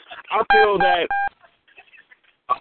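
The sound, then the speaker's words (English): A phone gives off a short, odd electronic tone between stretches of a person talking. The beep is brief and clear, with speech just before and after it. “My phone just did a weird sound, but I'm good.”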